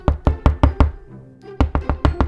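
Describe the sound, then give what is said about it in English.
Knocking on a door: two quick bursts of five loud knocks each, split by a short pause, with nothing else heard. “If a sign on a door reads, "Do not enter," do you enter? Of course you don't. The least you would do is knock first.”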